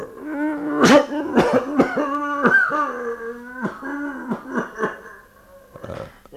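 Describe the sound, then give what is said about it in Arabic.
A man is seized by a fit of coughing: many harsh, fairly loud bursts in an uneven run, with strained, voiced gasps and rasping breaths between them. “تنتابه نوبة سعال، يعود إلى النور فيجلس، يمسح فمه”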